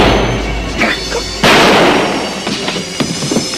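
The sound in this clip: A single loud gunshot rings out in a dark scene of a 1980 television drama, a sharp blast with a noisy decay, surrounded by softer scattered knocks and rustles.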